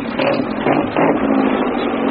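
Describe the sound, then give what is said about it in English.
A car engine revs as the accelerator cable is pulled from the pedal. A loud, steady engine drone swells briefly a couple of times. “This is the accelerator cable, see? This leads to the pedal inside the car. And when you put your foot down, this is what happens.”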